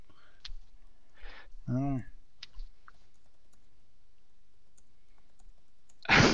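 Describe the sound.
A few sparse, light clicks of a computer keyboard as notes are typed. The clicks are spread out over near silence, with a brief voice among them.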